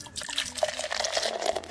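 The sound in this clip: Coffee being poured makes a steady liquid splashing and trickling that runs evenly through the short clip without any voices.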